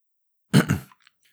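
A man clearing his throat in a short, rough burst of two quick guttural pulses, heard alone and followed by quiet.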